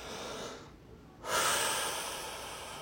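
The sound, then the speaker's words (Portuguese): Deep breathing during guided zazen meditation: an airy breath, a brief hush, then a long, loud, rushing exhale that slowly fades. “Procurem respirar, inspirar e expirar profundamente”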